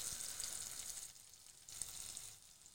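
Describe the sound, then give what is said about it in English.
Peppers and onions fry in a pan as they caramelize, giving a faint, steady sizzle and crackle that runs without pause. “So the more we keep cooking these peppers and onions, the more caramelized we have them.”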